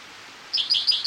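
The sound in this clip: A spotted towhee calls beside a creek with a quick series of high, thin chirps that begin after a brief quiet stretch and repeat several times, clear and fairly loud, with no other sound.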